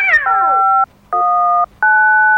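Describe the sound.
A cat meows three times, loud and drawn out, the first call sliding downward in pitch and the next two held evenly, each broken off sharply with short silences between.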